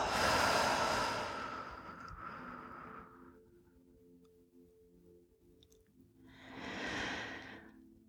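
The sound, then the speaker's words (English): Slow, deep breathing during a guided relaxation exercise: a long, airy breath swells loudly and fades over about three seconds, then after a quiet pause a shorter, breathy breath rises and falls. “Inhale. And exhale.”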